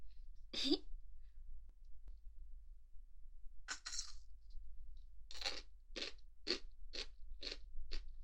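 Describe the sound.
Crunchy takuan, pickled daikon radish topped with bonito flakes, is bitten and chewed: a few scattered crisp crunches, then a quick, steady run of short crunching bites toward the end, all crisp and clear over a faint low hum.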